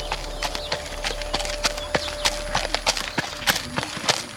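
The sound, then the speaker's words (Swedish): Horses shift and stamp inside a stable, giving many short, sharp hoof knocks on a hard floor in an irregular rhythm over a steady low hum. “så kommer man in i stallet och så står hästarna här och är jätteförväntansfulla”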